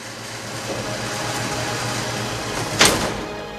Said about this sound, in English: The elevator continues climbing up its track, rising above the metal pillars to a vast open space.